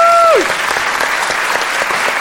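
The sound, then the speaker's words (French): Audience applause welcoming a guest on a French show, a dense, steady clatter of many hands that follows a brief tone sliding downward at the start. “Mesdames et messieurs, on peut applaudir.”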